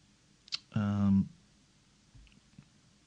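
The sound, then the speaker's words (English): Computer mouse clicks: one sharp click, then a short burst of voice, then a couple of fainter, softer clicks spaced apart. “Let's click on this. Hang on a second.”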